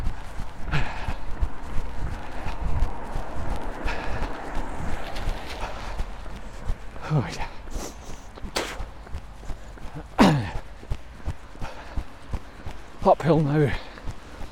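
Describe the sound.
Footsteps of a person running along a road near an old motorway access road, a steady rhythmic patter of many steps under a man talking.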